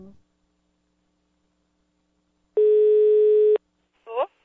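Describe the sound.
A telephone call's ringing tone sounds once as a single steady, clear tone lasting about one second, set in near silence with short bits of voice just before and just after it.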